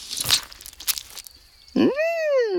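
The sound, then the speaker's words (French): Someone bites into a ripe red tomato at a picnic under a tree: a few wet crunching bites and chewing noises, followed by a loud tonal voiced grunt that rises and then sags. “Il mord dans la tomate bien rouge.”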